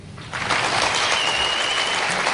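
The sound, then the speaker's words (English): Audience applause during a vote on which statement is fiction: a dense wash of clapping swells in after a brief quiet moment and holds steady and fairly loud to the end. “you should applaud for the one that you think is the fiction.”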